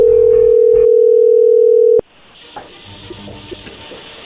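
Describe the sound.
Telephone dial tone heard while placing a call: a loud, steady, unbroken tone for about two seconds that cuts off abruptly, leaving faint line noise and a few small clicks.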